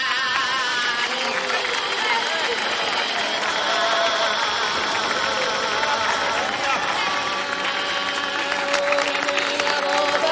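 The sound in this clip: A crowd of villagers singing and clapping at a 1950s village festival, a loud, continuous blend of massed voices, tuneful lines and applause that holds steady throughout.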